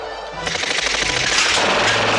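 Machine gun fire in a fight beside a train, a dense, unbroken rattle of rapid shots that fills the whole clip and grows slightly louder.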